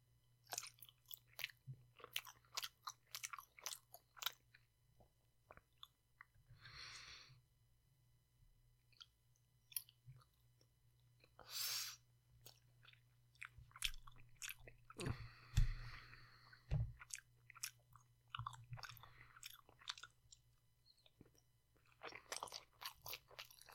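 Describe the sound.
Crunchy chewing and biting of snack noodles, with many quick crisp bites and soft mouth clicks in a steady, uneven rhythm. The sound is faint overall and there is no talking.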